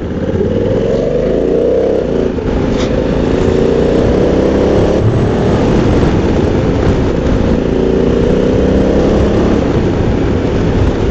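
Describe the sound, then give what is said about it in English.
An automatic twist-and-go motorbike with no gears cruises around a roundabout on a light throttle. Its engine drones steadily and loudly throughout, with gentle shifts in pitch and no talk. “Just sit comfortably, twist and go. Just cruising around this roundabout now, not even opening the throttle.”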